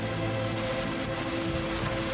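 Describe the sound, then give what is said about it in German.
Rain drumming on a tin roof, a dense, continuous patter that holds an even, fairly loud level from start to finish, with a low steady hum underneath. “Aber wir haben das Blechdach, das ist natürlich wirkungsvoller als ein Regenschirm. Zwar lauter,”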